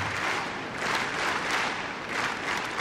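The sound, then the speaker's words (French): A tennis crowd claps in rhythm to encourage a Czech player, a dense, steady wash of applause that swells and dips gently in a regular beat. “Et le public qui met du rythme, vous l'entendez, qui encourage la Tchèque.”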